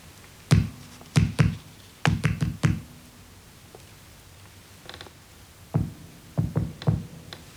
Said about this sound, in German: Nächte hindurch klang das Klopfen an mein Ohr.